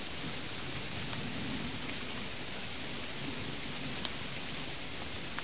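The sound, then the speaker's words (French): Heavy rain pours down in a dense, steady hiss of countless drops, continuous and even throughout with no voices. “La pluie s'aggrave.”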